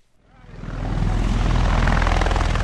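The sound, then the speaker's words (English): A Marine Osprey aircraft lands on the edge of Marja in a cloud of dust, its deep rotor and engine roar swelling over the first second into a loud, steady, throbbing drone. “The Osprey lands on the edge of Marja in a cloud of dust. But this Marine aircraft isn't here for any military action.”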